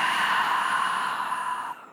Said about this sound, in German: Und über den Mund aus. Nochmal tief ein, füll die Lungen. Lass los, aus.